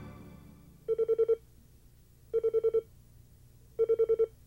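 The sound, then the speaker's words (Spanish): A telephone bell rings in three separate bursts, each a quick trill of about five rapid pulses. Short pauses fall between the bursts, and a low background hum runs throughout. “te hablan por teléfono”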